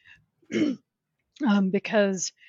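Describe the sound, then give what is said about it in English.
A throat-clearing cough from a person with a cough: one short, rough burst, then a longer voiced, rasping clearing sound after a brief pause, moderately loud against near silence. “I'm sorry, I just got a cough.”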